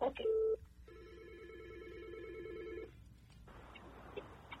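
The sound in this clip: Telephone tones as a caller is connected to a call-in line: a short loud burst of dialing tones, then a steady ringing tone for about two seconds, giving way to a hissy open line.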